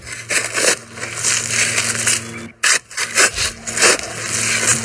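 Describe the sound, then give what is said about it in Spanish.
A shovel digging, heard as scraping, crunching strokes with a gritty, irregular rhythm. Several bursts follow one another, with a brief pause in the middle, and no voices. “Están cavando. Están con una pala, ¿no? Están cavando, es una cosa de cavar.”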